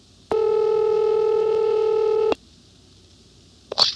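A steady, buzzy telephone tone on a cord switchboard line sounds for about two seconds and then cuts off, followed by silence and a short click.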